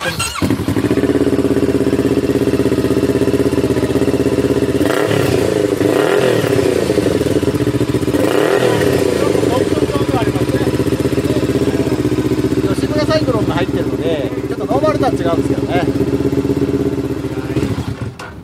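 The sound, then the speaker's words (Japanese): A Z65RS motorcycle engine runs at a steady, loud, throaty idle, holding an even rumble throughout with a couple of brief shifts in tone. “ちょっと今日乗ってきた別の車両をちょっとお願いしたいんですが、はい、これは Z65RS です。”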